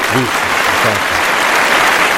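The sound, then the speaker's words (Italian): An audience applauds in memory of the singer Little Tony on an Italian radio show, the clapping loud and sustained, with a voice briefly heard at the start. “Doveroso l'applauso dedicato alla memoria di Little Tony.”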